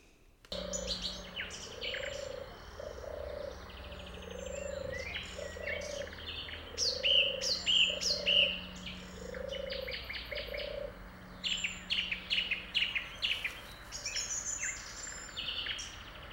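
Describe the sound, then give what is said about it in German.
A turtle dove's soft purring coos repeat in a rhythmic run, faint and low. Other birds chirp and whistle in the background, their calls growing busier partway through. “Das war sie, die Turteltaube in voller Action. Sie hat ein ganz spezifisches Gurren. Ich gebe zu, im Hintergrund, da waren noch andere Vögel zu hören.”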